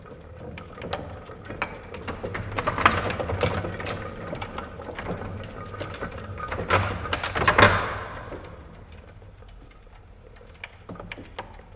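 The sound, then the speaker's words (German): Rhythmic mechanical clatter of a 1903 Phoenix high-speed printing press running, an A3 machine that can also be foot-driven, with repeated clanks that swell louder twice before easing off. “Wie zum Beispiel diese Phoenix aus dem Jahr 1903. Eine Schnellpresse, die bis zur Größe A3 drucken und bei Bedarf auch über einen Fußantrieb betrieben werden kann.”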